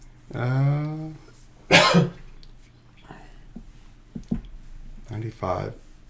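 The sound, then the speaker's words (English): A single sharp, raspy cough bursts out between brief low vocal sounds, with faint clicks and throat noises trailing after it. “I got a cough.”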